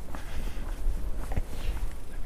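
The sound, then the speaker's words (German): Footsteps of people walking down a path, soft and irregular steps over a continuous low rumbling background. “Wir laufen jetzt zu, gehen hier den Schwimmweg herunter.”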